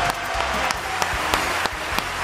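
Dense audience applause at an informal evening show, a steady rush of clapping with a few sharper individual claps standing out at irregular moments.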